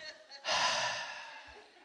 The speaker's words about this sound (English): Everybody take a deep breath with me right now.